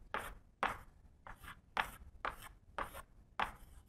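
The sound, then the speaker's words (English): Scratchy writing strokes as formulas are written down, seven short, sharp bursts at fairly even intervals with quiet gaps between them and no talking. “So let me just write that statement down in formulas.”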